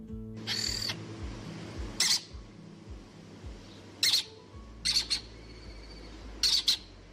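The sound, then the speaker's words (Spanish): Lesser kestrel calls, a small bird of prey, in Quer, Guadalajara: a series of short, harsh, high squawks, some in quick pairs, spaced apart over a low steady background hum. “Ellos son los protagonistas a partir de este momento. Es el cernícalo primilla, un ave rapaz de pequeño tamaño, cuya población está aumentando en Guadalajara, concretamente en Quer”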